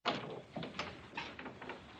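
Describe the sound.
Knocking on a dormitory door: a few soft, dull thuds spaced irregularly, faint and alone with no voices.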